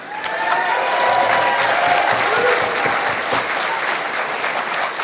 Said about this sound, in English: So thank you, and congratulations to all the affiliates that have done this state-level work. Let's give yourselves a hand.